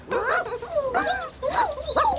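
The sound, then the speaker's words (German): Puppies whimpering and yipping: a few high, wavering whines and yelps in short bursts separated by brief pauses, with the cries clear against a soft background. “Oh, die armen Hundebabys.”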